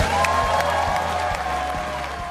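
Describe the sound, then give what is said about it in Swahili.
Crowd applause and cheering at a Labor Party campaign launch in the John Sutherland Theatre, Penrith, New South Wales, forming a steady, dense wash of sound that holds at an even level throughout. “Kiongozi wa chama cha Leba alipokewa kwa shangwe na nderemo katika ukumbi wa John Sutherland Theatre”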